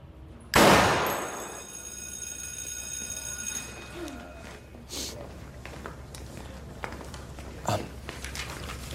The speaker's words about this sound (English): point it at your target, aim, and when you're ready, squeeze the trigger. Just like, do it now? Take a deep breath, then fire.